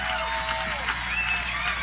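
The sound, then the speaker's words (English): An audience at an outdoor concert in Durham Central Park applauds. Dense, steady clapping runs throughout the short stretch at moderate loudness. “Y'all give a big round of applause.”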